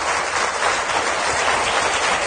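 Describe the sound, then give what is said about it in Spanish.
Church audience applauding in praise to the Lord, a dense, even wash of many hands clapping at once, sustained and loud from start to finish with no talk. “aplauso para el Señor, a Él la gloria por siempre.”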